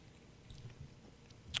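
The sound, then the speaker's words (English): Popcorn being chewed: faint, soft munching with a few muffled bites and one sharper, crisper crunch near the end, with no voices. “As we eat some yummy popcorn.”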